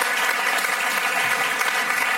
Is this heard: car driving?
no